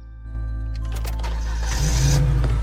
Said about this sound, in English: With a sickened expression, he starts the engine.